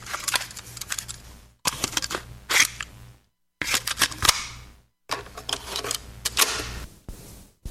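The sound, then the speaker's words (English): Cassette tape being popped into a tape deck: a few bursts of clattering plastic clicks and mechanical rattles, split by short silences. “That sound. The tape has popped into the deck and we are ready to roll.”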